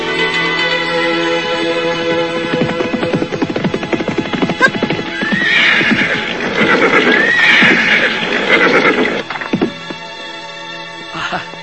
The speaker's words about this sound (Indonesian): Sa'ad bin Abi Waqqas sedang berkuda bersama dengan para pembantunya